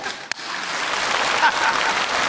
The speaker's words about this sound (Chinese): 大家就得给我鼓掌